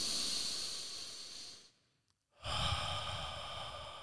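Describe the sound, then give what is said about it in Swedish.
Deep breaths taken together by a group: a long, airy, hissing breath, a short near-silent pause, then another long, breathy rush of air. “vi tar tre djupa andetag tillsammans.”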